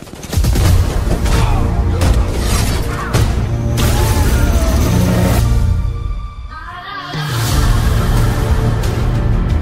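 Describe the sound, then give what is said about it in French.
Volleys of gunfire as shooters fire at will: a dense, loud barrage of overlapping bursts and crashes that thins briefly past the middle, then surges back. “Feu à volonté !”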